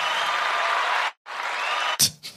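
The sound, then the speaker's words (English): Applause sound effect: two loud bursts of dense, even clapping separated by a short silence, followed by a brief low thud and a fainter burst. “A round of applause for this loser.”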